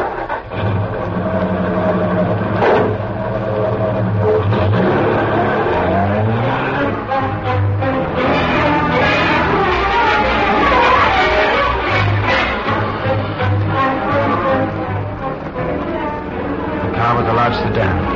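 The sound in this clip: A car driving off: a continuous engine rumble with rising and falling revs as it pulls away and changes speed, with voices at times over the motor noise.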